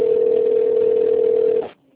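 Telephone dial tone while placing a call: a loud, steady single-pitched hum that holds evenly, then cuts off abruptly near the end, leaving near silence.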